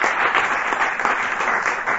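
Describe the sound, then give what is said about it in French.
Audience applause at a UMP political meeting in France, steady, dense clapping that stays at an even loudness throughout. “je crois qu'on peut vraiment t'applaudir et vraiment te remercier.”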